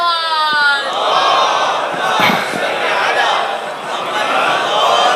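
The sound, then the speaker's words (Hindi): A crowd chants a religious salawat slogan together, a dense, loud mass of voices that holds steady across the whole clip. “सब मिलके नारा लगाइए, मोहम्मद व आलि मोहम्मद”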